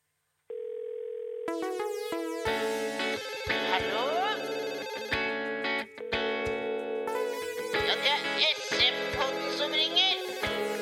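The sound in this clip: A telephone rings as a call is placed, opening with a steady tone and then breaking into loud, repeated electronic ringing with warbling tones.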